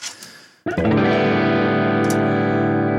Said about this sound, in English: I still have to tell this thing to give me a guitar amp and not a mic preamp. Hold on, so power that down. Let's use the Plexi.